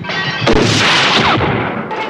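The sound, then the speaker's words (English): A heavy pistol firing in a film chase scene: one sharp, loud blast that spreads into a long, dense roar of noise before fading slightly. “Zora's martial arts are no match for Deckard's huge replicant-killing pistol, and he flattens her after a chase through streets and glass windows.”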